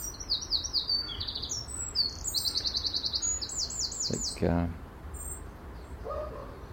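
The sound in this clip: Robins chirping, a parent bird feeding its young: quick, high repeated chirps in several short runs over a steady background hiss, followed by a brief lower call near the end.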